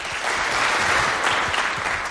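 Applause from an audience at a charity auction event: dense, steady clapping that holds at an even level for the whole clip, with no voices standing out.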